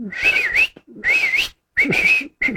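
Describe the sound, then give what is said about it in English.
A person whistling to a pet canary, three long warbling high-pitched phrases separated by short gaps, with a fourth phrase starting at the end, clear and fairly loud. “And he'd begin to whistle at this canary, like,”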